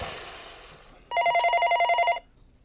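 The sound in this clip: A telephone bell rings in a single trilling burst of about one second, bright and fairly loud, after a quieter noisy stretch and before a short silence.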